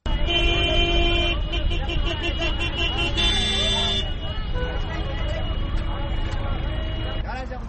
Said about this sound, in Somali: Codkaad maqleysaana waa kishbooyada kireeya basaska u kala goosha xaafadaha kala duwan ee magaalada Djibouti.